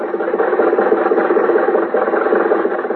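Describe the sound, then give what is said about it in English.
A car engine runs steadily as the car drives home after the races, a constant mid-pitched hum with a faint rattling texture and no voices. “When the races were over, Jack, Dennis, and I were riding home in Jack's car. We rode for about 15 minutes in silence.”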